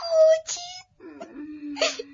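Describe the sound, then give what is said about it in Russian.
A child cries in several wailing, sobbing bursts, the first ones high-pitched and tremulous, followed by a lower, drawn-out moan and a final strained sob. “Тише. Ты своим плачем разбудил девочку.”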